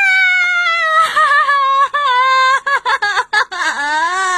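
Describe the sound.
A young child cries and wails, long sustained high-pitched cries that later break into choppy, sobbing bursts as the crying continues.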